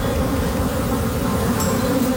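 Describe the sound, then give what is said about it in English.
Continuous droning buzz of a large swarm of honeybees from beehives spilled when a truck overturned, a dense, steady hum of many wings with no voices over it. “That's a lot of bees.”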